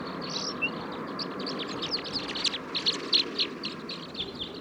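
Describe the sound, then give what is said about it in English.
Song of a male bird beside a flock, with captive birds calling nearby: many short, high chirps and whistles, busiest in the second half, over a steady low rumble of background noise. “Here's a song of one of the males.”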